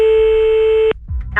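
A steady telephone ringing tone while a call is being placed. It is a single held note lasting just under a second, then cuts off abruptly, followed by faint clicks and rustling.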